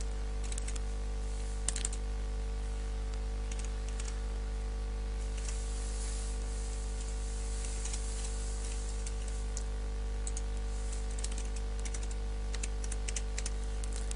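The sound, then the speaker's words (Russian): Soft keystrokes on a computer keyboard as login credentials are typed, faint, irregular clicks in short clusters over a steady low electrical hum. “Я ввожу идентификационные данные, которые хранятся в этом Identity Provider.”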